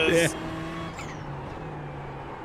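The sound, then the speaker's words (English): A Ferrari GT race car in a racing video game holds a steady, moderately loud engine drone. A brief louder burst comes at the start before the engine settles into an even hum. “He's on the Ferrari GT. We're in 19th right now.”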